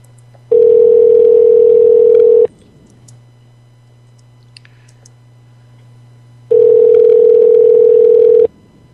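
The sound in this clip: Telephone line tones: two loud, steady beeps of about two seconds each, separated by roughly four seconds of quiet line hiss, with a low hum running underneath throughout.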